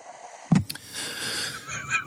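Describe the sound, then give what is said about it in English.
An asthmatic-sounding inhale: after a brief soft bump, a drawn-out, hissing, wheezy breath pulls in for over a second, rough and airy, and swells slightly at the end. “I'm inhaling after every call in my asthmatic inhale.”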